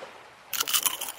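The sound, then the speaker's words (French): Someone bites into crunchy shortbread biscuits that fell in the sand at a beach. After a quiet start, a few sharp, brittle crunches follow in quick succession. “They're good. They're crunchy. Délicieux, ces petits sablés.”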